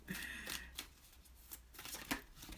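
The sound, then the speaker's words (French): Tarot playing cards being shuffled, several quick bursts of crisp, papery riffling and rustling in an uneven rhythm, with no talking. “Oups! Ah, tiens, j'en voulais pas un autre, mais j'ai continué à brasser.”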